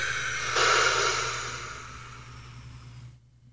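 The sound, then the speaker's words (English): A long, breathy rush of air in a breathing exercise starts abruptly, holds steady, then slowly fades before cutting to silence, over a faint low hum. “Breathe in. Hold it. And breathe out.”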